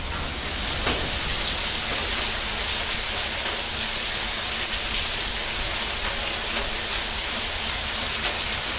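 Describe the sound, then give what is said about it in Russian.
Rain falls outside as a steady, dense hiss that holds even and continuous throughout, with only faint scattered drop-like ticks. “Ничего не слышите? Прислушайтесь! Там, снаружи! Это дождь. Идет дождь.”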